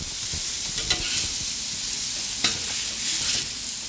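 Hamburgers sizzle on a grill at a smashburger cook-off, a hamburger championship. A steady, loud frying hiss runs throughout, broken by a few brief scraping clicks.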